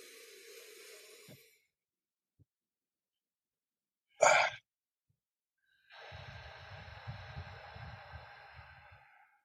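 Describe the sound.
Forceful breaths exhaled through an open mouth in a breathing exercise: two breathy, hissing rushes of air, a short one at the start and a longer, rougher one near the end, with a brief sharp burst between them and near silence otherwise.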